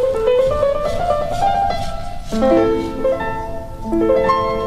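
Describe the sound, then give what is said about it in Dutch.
A short melody played on the first of two pianos set up in the same room: single notes step along at a moderate pace in the middle register, then lower notes enter, loud and clear, with no voices. “Dit is piano 1.”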